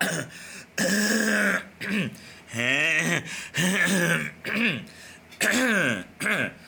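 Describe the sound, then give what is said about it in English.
A person clears their throat repeatedly, several voiced, rasping bursts with wavering pitch, separated by short pauses. “I will have gone back and taken out a lot of the throat clearing and all, because I know it's been very annoying today”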